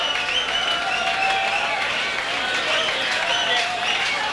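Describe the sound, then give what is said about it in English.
A concert crowd at a venue called the Channel claps and cheers while waiting for a band from Manchester, England to return for an encore. A dense, continuous wash of applause and shouting holds at an even level throughout. “And once again, just awaiting the band to... They're going to be coming out on stage in just the next couple of seconds, coming out for their encore. Obviously, the crowd in a good mood.”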